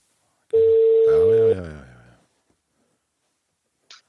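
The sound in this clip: Telephone being dialled on a newly connected phone setup: a steady tone lasting about a second, overlapped by a warbling, wavering pitched sound that fades out, then a brief click.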